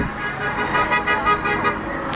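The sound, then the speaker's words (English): A Lamborghini sports car drives past on a road beside a small street protest, its engine a steady, loud roar that swells briefly and blends with traffic noise. “There goes a Lamborghini.”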